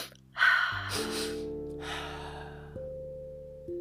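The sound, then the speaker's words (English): Two quick inhales and then one long exhale make up a breathing exercise. The breaths are soft, airy rushes over a quiet sustained musical drone. “So you do two inhales quick, and then one big exhale.”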